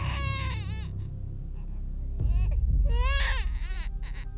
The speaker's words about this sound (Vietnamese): Bên tai của mụ là tiếng trẻ con khóc choe choé, nghe đến giận cả người.